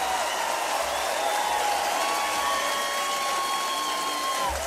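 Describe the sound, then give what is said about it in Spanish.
Audience applause for the musicians, a steady wash of clapping at moderate level that stays even throughout, with faint sustained tones running through it. “¡Aplauso tremendo para los músicos, loco!”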